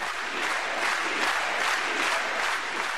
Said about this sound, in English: The two Castros received a long-standing ovation today, followed by a rendition of the Cuban national anthem. This all took place before the Communist Party Congress in Havana.